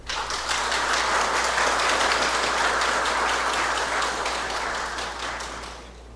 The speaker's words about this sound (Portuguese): Vamos aplaudir.